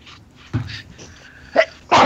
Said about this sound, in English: Oh, bless you. That's very professional. Sneeze on the mic. I was trying not to. It snuck up on me.